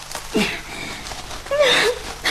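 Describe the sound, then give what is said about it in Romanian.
A boy crying, with soft whimpering sobs and gasping, wheezy breaths that come in a few uneven bursts. “Băiatule, de ce plângi?”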